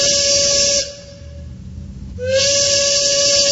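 A train's steam whistle sounds in two long, loud blasts separated by a pause of just over a second. Each blast is a steady, bright tone with an airy hiss on top.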